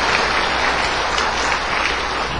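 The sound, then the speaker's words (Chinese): Enthusiastic audience applause inviting a Buddhist master to give a teaching, a thick, steady wash of clapping that holds at an even level throughout. “现在我们以热烈的掌声恭请上清下海师父为我们开示。”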